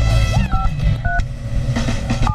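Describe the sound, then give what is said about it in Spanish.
Telephone keypad dialing tones sound as a number is dialed to call a raffle winner: three short, high, clear beeps, unevenly spaced, over a dense, noisy background. “abre la línea telefónica para marcarle a la persona que se lleva el boleto ganador de Grupo Brindis”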